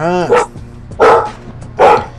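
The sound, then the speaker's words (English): A dog gives three loud, sharp barks spaced evenly about three-quarters of a second apart, with a man's voice briefly heard just before the first bark. “What did you do to the dog, man? Probably seen another dog walking down the street.”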